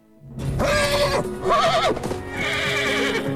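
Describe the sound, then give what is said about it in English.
A horse rearing up lets out a loud, wavering whinny with a trembling, quavering pitch in the middle, sustained over several seconds. “The horse suddenly rears up,”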